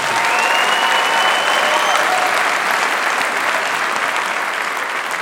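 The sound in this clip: Warm applause from a church audience welcoming a guest pastor as speaker, loud, dense and continuous throughout with only a slight easing at the very end.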